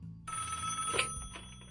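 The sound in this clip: A telephone rings as a listener calls in to a show. There is a single bright, trilling ring lasting under a second, then it fades out, fairly quiet.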